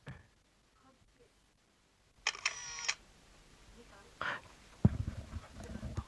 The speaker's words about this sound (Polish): Uwaga, no to start. Robię zdjęcie.